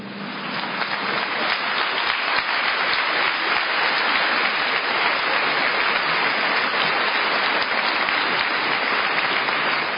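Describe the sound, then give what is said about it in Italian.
Sustained applause from an entire assembly in Milan, answering the archbishop's mention of the Pope: dense, even clapping that fills the whole stretch without a pause. “l'applauso di tutta l'Assemblea”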